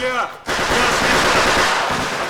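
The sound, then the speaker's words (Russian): Sustained automatic gunfire from a war film scene with German soldiers, a dense, loud, continuous rattle of rapid shots that begins after a brief pause and keeps going to the end. “Тщательно целясь, Темдеков продолжает стрелять.”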